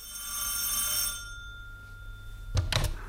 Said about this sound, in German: Da läutete das Telefon.